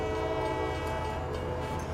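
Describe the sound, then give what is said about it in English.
A train horn sounds as the train arrives, a steady, sustained harmonic blast lasting the whole clip over a low rumble. “Here comes the train.”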